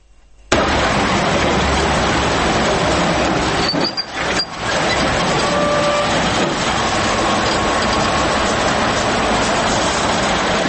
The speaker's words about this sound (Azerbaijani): Ərazidə gecə-gündüz neft mancınaqları işləyir.